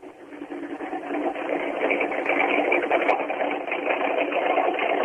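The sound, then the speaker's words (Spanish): A Ford Mustang race car engine idles just after being started, with a fast, steady, buzzing rumble. It swells during the first second and then holds an even level, with a few faint clicks on top. “Primer motor encendido en este momento, a la hora del programa, es el del Mustang de Craparo, con viborita colocada.”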